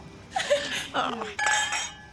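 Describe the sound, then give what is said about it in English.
Wine glasses clink in a birthday toast, with a few light clinks and brief voices leading to a bright, ringing glassy tone that sustains before cutting off. “Wine glasses clink, fade to black.”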